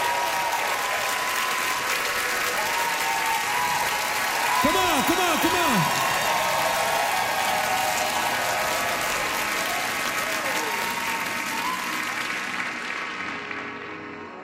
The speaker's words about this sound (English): Come on, Vancouver, make some noise!